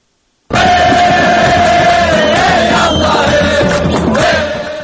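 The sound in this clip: A crowd celebrates Libya's declaration of liberation, a loud, dense roar of cheering voices that bursts in suddenly and holds steady before easing slightly at the end.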